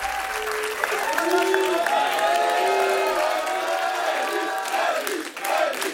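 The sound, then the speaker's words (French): A concert audience applauds and cheers as the drummer walks on stage, a steady, loud wash of clapping with high whoops and shouts rising through it for the whole stretch. “Et oui, c'est l'arrivée du batteur qui est salué par le public.”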